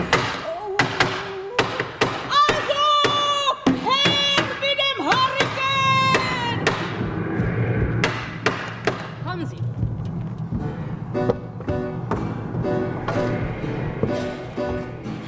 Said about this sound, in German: Ich habe den Mann von nebenan her bestellt, den Alten. Wegen der Fenster, damit er sie zunagelt.